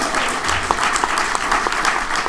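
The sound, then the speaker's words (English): An audience claps for a married couple, with brisk, even applause that holds steady and fairly loud throughout the short clip. “Congratulations, good for you. And how long have you been married? 14. 14 years. Son of a gun. Let's give him a hand.”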